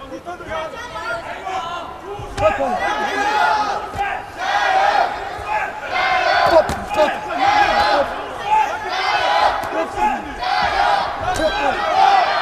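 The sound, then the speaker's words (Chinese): Fan club cheering and shouting in support of a competitor at a live match. A dense, loud crowd roar with shouted voices runs through the whole clip, rising and falling in waves. “我们现场也有朱帅的粉丝团啊，在为朱帅加油助威。”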